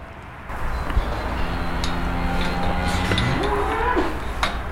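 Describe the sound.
A herd of calm Nantaise cattle lowing: one long, drawn-out moo whose pitch climbs toward its end, heard over a steady background hiss.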